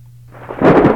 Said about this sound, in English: My thunder was a little late there. Why are you late, Thunder?